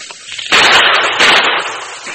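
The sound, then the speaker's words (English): Two loud, sharp gunshots ring out in a Western scene among boulders and brush, each a harsh burst with a lingering tail, the second following about three-quarters of a second after the first. “Fire a shot or two in that direction to cover me”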